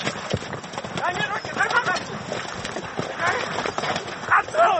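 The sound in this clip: Galloping horses thud and clatter during an ulak game, in which riders fight over a goat carcass. The hoofbeats come as a dense, uneven rumble beneath a voice talking throughout.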